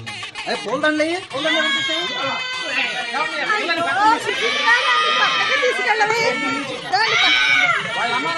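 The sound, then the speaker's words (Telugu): An infant cries in bursts amid adult chatter and raised voices in a Telugu drama scene, the wailing rising over steady overlapping talk. “అయ్యో పిల్లల ఏడుస్తుంది కదా, పక్కన తీసుకెళ్ళవి.”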